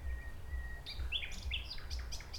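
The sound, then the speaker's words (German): A nightingale sings a song phrase: a quick run of high, sharp chirps and whistled notes, fairly faint, following a brief quiet opening. “die Nachtigall singt eine Strophe und dann macht sie 4 Sekunden Pause etwa. Und dann singt sie die nächste Strophe.”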